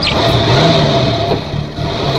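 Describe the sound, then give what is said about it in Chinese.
A car engine runs with a steady, mid-pitched revving drone as the car drives off toward a temple, dipping briefly in loudness near the end before holding level again. “安在田发动了车子，车子向寺院开去。”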